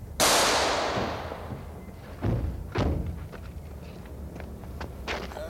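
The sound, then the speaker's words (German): A gunshot in a German radio crime drama: one sharp, loud blast with a long decaying tail, followed a moment later by two duller thuds. “Aufpassen, Herr Kommissar! Marco schießt!”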